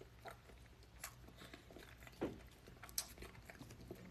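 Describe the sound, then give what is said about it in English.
Chewing food while eating comes through faintly as soft, wet mouth sounds. Scattered small smacks and clicks come at an irregular rhythm. “I'm hungry, hungry. So I'm gonna eat some more of this.”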